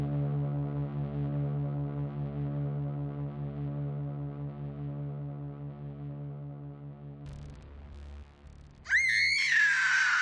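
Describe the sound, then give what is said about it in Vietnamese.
A person screaming during a Halloween-night chase game in a cemetery: a short, high, wavering cry bursts in near the end after a long, low droning tone. “An Huy nghe rõ có tiếng một người hét, sau đó là một trận cười giòn tan”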